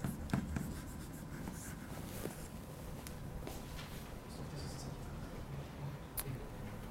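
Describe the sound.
Writing on a board during a physics lecture: a run of faint scratchy strokes and taps over a low background hum.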